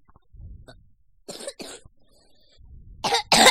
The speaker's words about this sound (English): You just burped, coughed, and farted into the microphone.